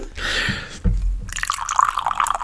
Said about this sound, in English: I'm going to pour it into the glass. Let's see if you can pick this up or not.